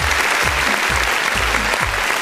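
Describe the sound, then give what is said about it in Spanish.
Steady, dense applause from a crowd fills the whole moment at an even, loud level, with soft low thumps pulsing underneath. “le mando pero un tremendo aplauso para que se recuperen pronto”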